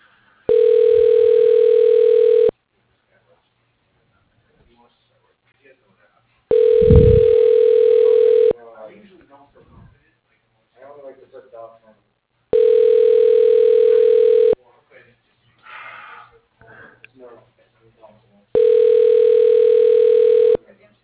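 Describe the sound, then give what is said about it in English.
Telephone line tone as an office extension is dialed: four long, steady, identical tones of about two seconds each, repeating at even intervals, with short bursts of voice in the gaps between them. “To listen to these choices again, dialing Diane Field, extension 1203.”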